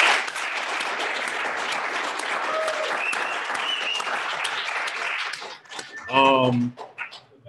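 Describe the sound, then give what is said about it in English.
Audience applause from people gathered in a room, a dense sustained clapping that holds for about five seconds, then thins out as a voice begins speaking. “Thank you to everybody that, clap it up for yourselves.”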